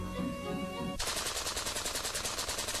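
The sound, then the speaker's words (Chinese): A Maxim heavy machine gun fires at about six hundred rounds per minute, a loud, rapid, evenly spaced stream of shots that starts abruptly and rattles on steadily. “随着哒哒哒哒的连声作响，马克沁机枪以每分钟六百发子弹的射击，构成了一个巨大的火力网。”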